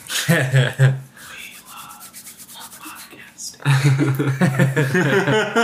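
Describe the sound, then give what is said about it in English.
Rubbing on a microphone, producing a scratchy, rhythmic brushing noise that lasts a couple of seconds between stretches of people talking. “Start rubbing the microphone.”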